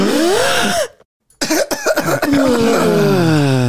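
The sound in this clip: Coughing after something went down the wrong pipe: a strained voiced sound cuts off into a brief silence. A loud cluster of rough, sputtering coughs follows and trails into drawn-out breathy vocal sounds.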